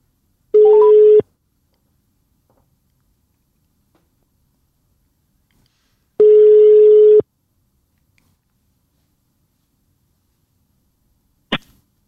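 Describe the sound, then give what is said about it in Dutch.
A telephone rings out on an outgoing call. Two steady, pure ringback tones about a second long are separated by a long silence, and a brief sharp click follows near the end. “Ja, we bellen hem.”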